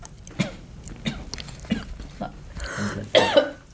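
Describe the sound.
Coughing from a dry throat: several harsh, irregular coughs, some closely spaced, the last few louder and sharper, heard alone with no speech.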